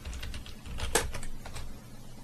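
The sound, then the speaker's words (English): Keyboard typing as the word Fallout is entered into a Steam search on a PC: a short run of soft, quick key clicks, faint and irregular, with one slightly sharper tap near the middle. “I think it is on Steam, I think. Can you type in Fallout for me?”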